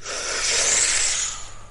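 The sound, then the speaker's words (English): A deep breath drawn in for demonstration: a long, airy, breathy hiss that swells steadily, holds, then tapers off over less than two seconds. “I take a deep breath, like this.”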